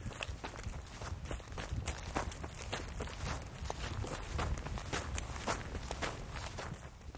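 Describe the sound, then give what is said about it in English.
Footsteps walk up to a house, many regular, evenly paced steps keeping a steady rhythm from start to finish, fairly faint and with no voices. “Walking up to Scott Green's home, I'm welcomed by a stone carving of Bigfoot perched on his balcony.”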